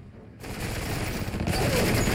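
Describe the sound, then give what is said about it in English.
Dense automatic gunfire mows down soldiers at a Soviet military facility. The rattling volley runs unbroken and grows louder about two-thirds of the way in, with heavy booming shots layered through it. “Soldiers are mown down by gunfire, then scientists wearing hazardous matter suits are riddled with bullets.”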